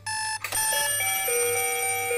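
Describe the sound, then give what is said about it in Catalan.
An alarm clock rings loudly: a steady electronic tone, then a sharp metallic strike that gives way to sustained, bright ringing until the end. “Com et despertes cada dia? Ets dels que fan servir despertador?”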